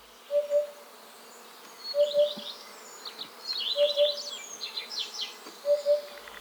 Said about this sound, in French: la huppe fasciée. Tendez l'oreille pour entendre son fameux hup-hup caractéristique.